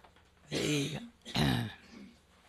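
Throat clearing from a dry throat: two rough, forceful bursts in quick succession, fairly loud, with no speech.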